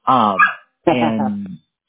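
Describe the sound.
A dog barks twice, each bark loud, drawn-out and tonal, with a clear pause between them.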